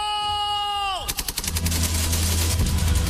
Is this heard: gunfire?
yes